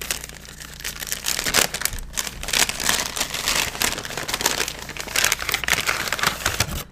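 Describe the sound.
Crinkly foil crackling as a trading card pack is torn open and handled, a dense, uneven rustle with sharper crackles scattered throughout and no voices over it.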